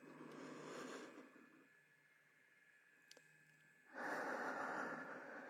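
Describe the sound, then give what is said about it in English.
Deep breathing from a single person: two long, airy breath sounds, the second one fuller and louder, with a quiet, still pause between them. “I'm just gonna take another deep breath.”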